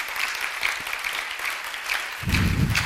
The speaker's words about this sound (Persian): واقعا جا داره استاد تیموری حسابی به خاطر این نگرششون تشویق کنی